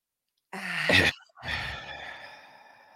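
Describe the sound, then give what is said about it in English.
One person draws a deep, breathy breath in and then lets it out in a long sighing exhale that slowly fades. “But definitely take a breath. Are you ready? Yes. Okay. Take a deep breath in.”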